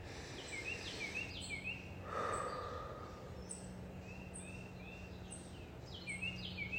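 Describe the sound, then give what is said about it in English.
Carolina Wren singing, a faint series of bright, rapid chirped phrases repeated again and again over a soft, steady background hiss. “And the Carolina Wren is requesting a cheeseburger, cheeseburger, cheeseburger.”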